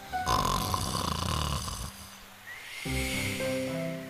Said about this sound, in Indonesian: Serigala mendengkur keras sehingga membuat cabang pohon bergoyang.